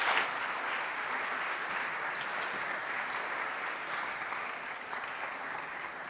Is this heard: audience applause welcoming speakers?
yes

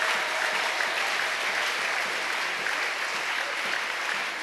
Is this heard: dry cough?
no

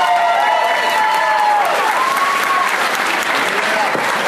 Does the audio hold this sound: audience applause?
yes

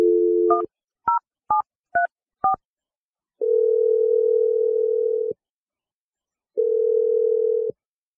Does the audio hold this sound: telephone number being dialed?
yes

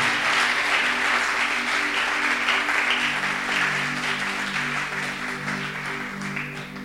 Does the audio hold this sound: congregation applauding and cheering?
yes

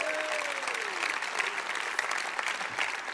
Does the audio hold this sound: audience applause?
yes

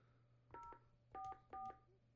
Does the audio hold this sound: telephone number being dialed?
yes

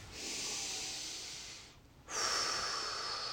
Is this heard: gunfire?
no

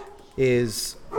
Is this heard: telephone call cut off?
no

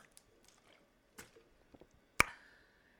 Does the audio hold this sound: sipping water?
yes

